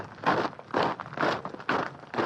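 An honour guard marches in step, with five heavy, evenly spaced footfalls about half a second apart.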